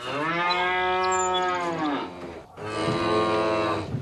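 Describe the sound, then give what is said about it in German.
Cattle mooing on the grazing pastures of Azuero, Panama, where herds are ranched extensively: two long, loud, deep moos, the first drawn out and sagging at the end, the second shorter, with no other sounds. “400.000 Rinder ziehen über Azueros Weiden.”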